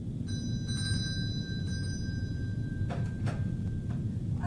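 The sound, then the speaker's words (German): A doorbell rings with a steady, sustained high tone that holds for several seconds, over constant low background noise, with a few brief clicks along the way. “Bedienen Sie die Klingel”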